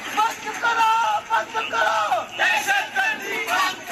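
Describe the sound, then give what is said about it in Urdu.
Protesters at Edhi Chowk in Karachi chanting slogans against a church attack, a loud, dense mass of shouting voices rising and falling in rhythmic waves. “Edhi چوک پر مظاہرین نے tyre جلائے اور نعرے بازی کی۔”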